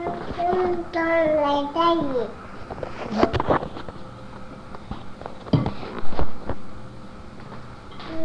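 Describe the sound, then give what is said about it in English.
A baby babbling, with a few rising and falling voiced sounds in the first two seconds, followed by a quieter stretch with a few soft knocks and clicks. “he's babbling.”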